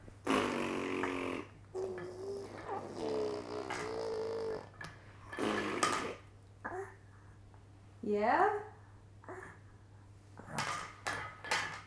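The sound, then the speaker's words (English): A baby blowing raspberries: several buzzy, sputtering lip bursts mixed with babbling, and an adult voice talking in between. “You're blowing raspberries. I blow a raspberry back at you.”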